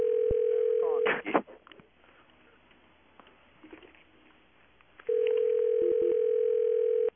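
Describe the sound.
A telephone dial tone hums as a steady, even tone. It cuts off after about a second with a short clatter of handset noise, gives way to a quiet stretch, then returns loudly, broken by a couple of brief gaps near the end.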